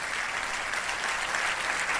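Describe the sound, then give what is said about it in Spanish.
Applause from a church audience for the Lord: dense, continuous clapping that holds at an even level throughout, with no talking. “Vamos, y ese es el aplauso al Señor. Dáselo mejor.”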